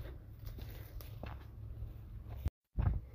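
Footsteps walking down a few steps outdoors in a hamlet near Torpoint, Cornwall: a few soft, faint footfalls over steady outdoor hiss, cut off briefly near the end before a low thump.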